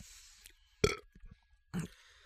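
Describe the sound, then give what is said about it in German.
Burps after drinking strongly carbonated natural mineral water: two short, low belches about a second apart, faint, with quiet between them. “Aber extrem viel Kohlensäure, finde ich. Jetzt ist meine Frage. Natürliches Mineralwasser. Da kannst du rülpsen von.”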